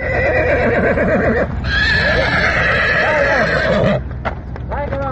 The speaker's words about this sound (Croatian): Tu sudbinu izbjegli su konji jednog gazde iz Mislođina, koje smo sreli na lokalnom putu kada su uplašeni vraćani u štalu.